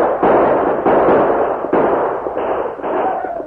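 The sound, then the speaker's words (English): Gunfire from a posse in a radio drama: several loud, sharp blasts with rough rumbling tails, fired at an irregular pace one after another, with no talk over them. “Right around them, keep firing down at them.”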